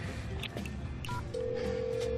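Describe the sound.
Telephone dialing tones as a call is placed: a few short beeps, then a steady, even tone that holds to the end at a moderate level, with no talk.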